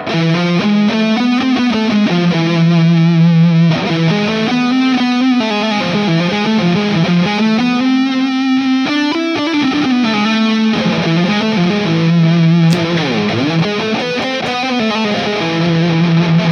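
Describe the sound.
Distorted electric lead guitar solo phrasing A harmonic minor notes over an E harmonic minor backing, with a continuous flow of loud, sustained notes and bends running through the whole passage.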